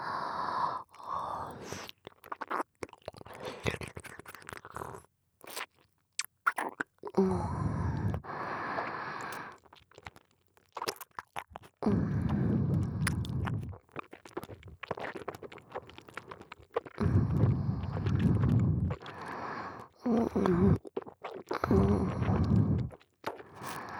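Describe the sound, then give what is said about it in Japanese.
Food is eaten and swallowed in many intermittent bursts of moist chewing and gulping, separated by short quiet gaps. “飲み込む音聞いてて。いただきます”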